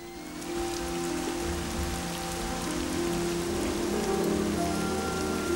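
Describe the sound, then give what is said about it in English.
Torrential rain pours while a rider is out on horseback: a dense, continuous hiss that stays loud and steady throughout, with no voices. “Katie rides Flicker in torrential rain.”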